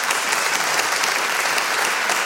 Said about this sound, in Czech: potlesk pro tebe